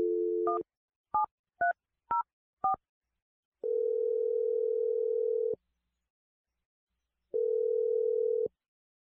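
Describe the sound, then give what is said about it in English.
Touch-tone keypad beeps as a telephone number is dialed: a quick run of short two-pitch tones, then two long, steady ringing tones separated by a silent gap. No voices. “We're going to dial her number now.”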